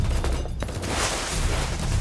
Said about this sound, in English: I ducked and slid through the barrage of bullets.